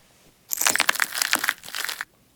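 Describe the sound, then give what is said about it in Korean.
Footsteps crunch over broken light bulbs in a half-collapsed house with a semi-basement. A dense burst of sharp crackling glass lasts about a second and a half, loud against near silence. “연희의 뒤를 따라온 유라와 현우가 깨진 전구를 밟으며 낸 소리에 반지하에 있던 검은 형체들이 뒤에 구멍과 창문을 통해 후다닥 도망갔다.”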